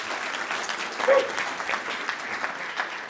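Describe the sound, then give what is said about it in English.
A church audience at The Beacon Church applauds to welcome a speaker to the stage, with a thick, continuous wash of many hands clapping, a few sharper claps standing out, and an even level throughout. “Would you put your hands together and welcome the gaffer, Mike Craig.”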